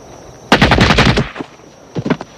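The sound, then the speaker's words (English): Gunfire from a gun shot into the ground, a loud rapid burst of many shots lasting under a second, followed after a short pause by a brief second burst of a few more shots. “Sean fires into the ground at his feet.”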